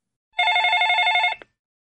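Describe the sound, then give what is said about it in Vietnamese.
A landline telephone rings once, a bright, steady electronic ring lasting about one second that cuts off sharply, alone with no talk. “Ngay khi nó vừa bước được một bước, điện thoại bàn lại vang lên tiếng chuông.”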